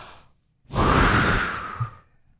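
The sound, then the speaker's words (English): One long, breathy deep breath, taken during a guided healing session for a lower back problem, swells softly and then fades out. “1, 2, 3, take a deep breath.”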